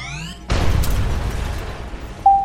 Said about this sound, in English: They're firing up their weapons! Raise shields!